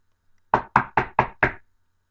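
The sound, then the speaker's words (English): Five firm knocks on a door in an even, quick rhythm, each a solid, hollow rap that decays quickly, with silence around them. “You know, someone knocks on the door.”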